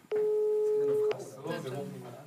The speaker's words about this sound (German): Er ist die ganze Zeit besetzt bei euch.